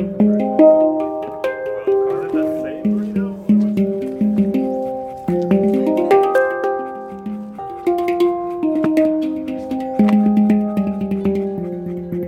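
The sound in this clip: A hand pan is played note by note up its whole scale, starting from the lowest fundamental. Many clear, bell-like metallic tones are struck in a steady sequence, each ringing and fading as the next one sounds.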